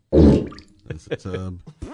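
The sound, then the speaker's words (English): A bubbling, fart-like plop nicknamed a Jetson fart bursts out loud and low at the start, then quickly gives way to people talking. “That's a Jetson fart. Mm. All right, that's what I call it. I don't know why. I could see George Jetson doing that.”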